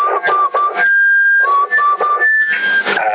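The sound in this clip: A person whistles over a CB radio channel: a series of clear, sustained notes that step between pitches with short gaps, carried in a thin, narrow radio tone.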